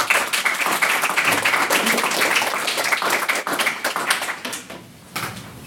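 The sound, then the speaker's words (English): Audience applause for a maiden speaker at an evening debate on whether European states must accept refugees: dense, steady clapping that dips briefly near the end, then resumes. “can I get another round of applause for our, our maiden speaker this evening?”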